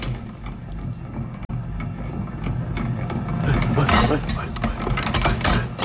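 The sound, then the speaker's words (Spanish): A mixer with rotating arms churns out a dense, continuous mechanical clatter and whir, with a brief dropout near the start and slightly louder, busier grinding in the second half. “¿qué es este sonido? Esto es una mezcladora, uno de estos brazos que van girando.”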